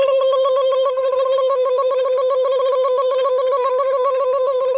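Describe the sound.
A telephone rings for an outgoing call, giving a steady electronic tone with a buzzy, harmonic-rich pitch that holds loud and unbroken for several seconds, with no talk over it.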